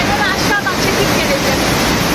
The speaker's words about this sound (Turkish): Kısa sürede gök gürültülü sağanağa dönüşen yağış nedeniyle birçok cadde ve sokak göle döndü.